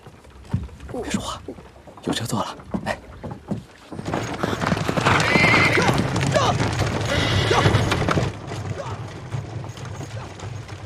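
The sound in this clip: Clip-clop of horse hooves pulling a horse-drawn carriage on the road toward a mountain summit. Scattered clops come first, then a denser, louder rolling clatter runs for several seconds before it eases off.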